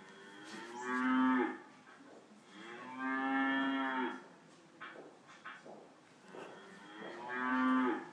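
Friesian cattle low inside a farm museum exhibit on feeding animals in winter, Milton Keynes: three long, deep, drawn-out moos with a few shorter, softer grunts between the second and third.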